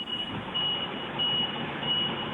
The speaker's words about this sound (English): Are you reversing some heavy machinery, like a forklift? Are you reversing a truck? I sure am.